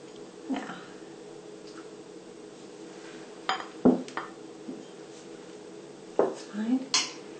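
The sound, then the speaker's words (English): A spoon scraping custard out of a bowl, with light clinks and knocks of utensil against the dish coming in scattered bursts, including a quick cluster of taps near the end, all fairly faint. “So now I'm going to put my custard into the bowl. Make sure I try and get everything out of the bowl.”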